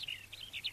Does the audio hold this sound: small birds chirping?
yes